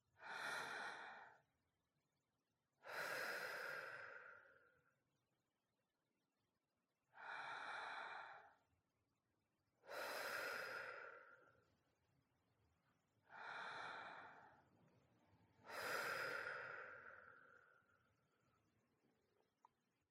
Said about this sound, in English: let's start by taking a few deep breaths to let out the tension that you're experiencing right now. So in and out three times.